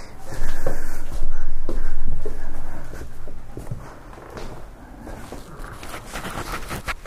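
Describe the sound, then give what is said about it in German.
Footsteps walk into a kitchen: a run of soft thudding steps with light scraping, louder at first and then continuing more quietly. “Also wie gesagt, ich kann jetzt auch noch mal in die Küche gehen.”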